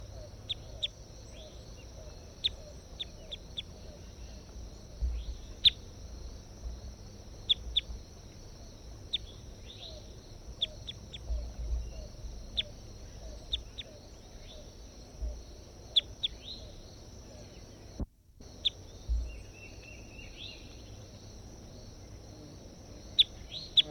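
Recorded bird calls: many short, high, faint chirps scattered at irregular intervals over a steady high-pitched hum and a low background rumble.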